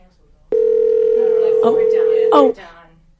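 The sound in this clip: A telephone line tone signals an incoming caller, a single steady, mid-pitched beep held for about two seconds while voices talk over its later part.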